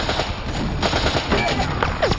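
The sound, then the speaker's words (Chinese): Gunfire from a World War II battle at the Bénouville bridge: dense, continuous crackling bursts and sharp reports layered over one another without a break. “除了交火声，各个排还在大声喊着代号。 嘈杂的声音从四面八方传来，”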